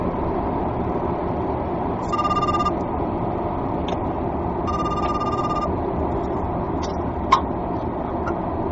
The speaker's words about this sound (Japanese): 電話します、一本。しばし。しばし待ちます。